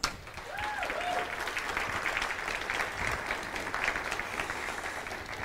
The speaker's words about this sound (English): Why don't you go ahead and put your hands together and let's welcome Pastor Matt Popham to our stage.